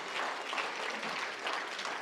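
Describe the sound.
Audience applause fills a church as the audience welcomes a speaker: dense, steady clapping that holds at an even level for about two seconds, with no voices over it.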